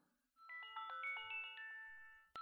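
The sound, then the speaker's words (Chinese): An alarm clock rings with a bright electronic melody of several stepped chime tones, clear and fairly loud, then breaks off and briefly starts again at the end. “闹铃响了，这么快就到点了。”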